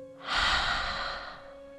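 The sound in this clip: A single deep breath, soft and airy, swells up and fades away over under two seconds with no talking.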